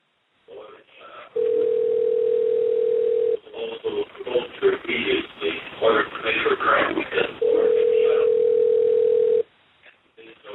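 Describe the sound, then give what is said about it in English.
Telephone dial tone on a line while a call is being dialed, a steady single-pitch hum heard in two long stretches with people talking in between. “Okay, we're dialing.”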